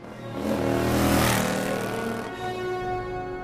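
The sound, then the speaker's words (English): A motorcycle engine rides out through opening mansion gates, swelling to a loud, rough roar that peaks and then eases into a steadier, lower hum. “Later, the gates to the mansion open, and Wolverine rides out on his motorcycle.”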